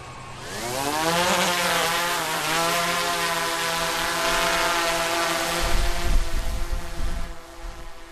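Camera drone, used for filming animals, taking off close to the ground: a loud, buzzing motor whine rising in pitch as the rotors spin up, then holding a steady drone, with rough wind-like rumbling buffets near the end.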